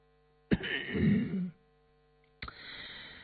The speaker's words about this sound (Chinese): 乌斯道目光流动，轻咳了一声